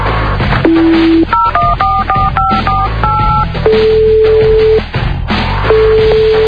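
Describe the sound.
Touch-tone keypad dialing to send a contract by fax: a long steady tone, then a quick run of many short two-pitched key beeps, followed by two more sustained tones, all loud over a dense background hum.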